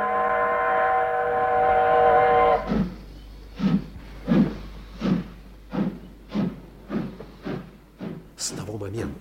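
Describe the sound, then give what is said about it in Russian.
A steam train pulls out of a station: a long, steady whistle sounds first, then gives way to a regular series of heavy chuffs that repeat at an even pace. “Поезд отошел от станции”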